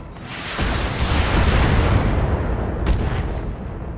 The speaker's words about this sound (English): Well, mainframe is gonna fire at that commando. Roger. And missed with the PPC.